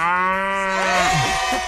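A bull gives one long, loud moo, a rich harmonic low call held steady before bending downward near its end, heard alone without talk.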